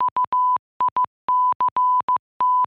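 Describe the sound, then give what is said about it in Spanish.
Electric telegraph messages come through as Morse code: clean, high, steady beeps in short and long pulses, grouped irregularly and heard alone. “¿Oyes esos breves golpecitos que suenan en los alambres que sostengo? Son los mensajes que lleva el telégrafo eléctrico.”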